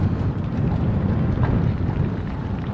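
Strong wind blows at a football game, a steady, heavy low roar and rumble buffeting the microphone with no clear breaks.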